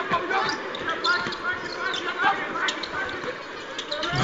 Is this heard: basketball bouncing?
yes